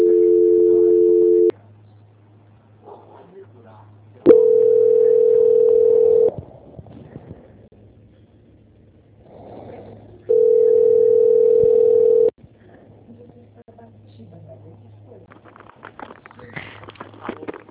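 Telephone line tones while a call is being transferred: three long, steady beeps of about two seconds each, separated by quieter pauses with only a faint low hum.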